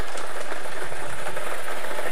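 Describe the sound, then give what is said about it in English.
Whirring and rattling of the Daily Millions lottery draw machine as it spins the numbered balls: a loud, continuous mechanical churn with busy clattering texture and no pauses. “We're playing our Daily Millions game from Monday, the 22nd of June, 2026. Let's get these balls spinning.”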